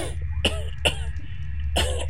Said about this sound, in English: you don't hear any howling, but Faladin does start coughing